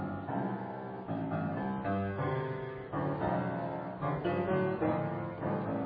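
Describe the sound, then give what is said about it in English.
Early twentieth-century composed music plays alone and fairly quietly, with sustained, richly layered harmonic chords that shift every second or so. “if you listen to Cyril Scott's music, it sounds like this.”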